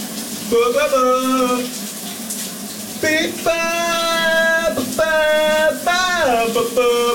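Shower water runs in a steady hiss throughout, while a man sings in the shower over it in a series of sustained, wavering phrases.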